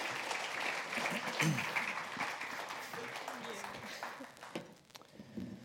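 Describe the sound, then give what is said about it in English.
Audience applause giving someone another hand, dense steady clapping that gradually thins out, with voices talking over it. “You guys want to give him another hand?”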